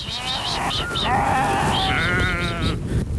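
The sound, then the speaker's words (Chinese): Sheep bleat as they are driven back to their pen from a lower pasture at the foot of the Tianshan mountains, with loud, tremulous bleats overlapping almost continuously. “古丽下棋，收拾好店铺，又要赶到他们家位于天山脚下的下牧场，把羊赶回羊圈。”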